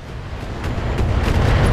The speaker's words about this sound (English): Some of the turrets are using indirect LRM fire against us. I'm barely scratched.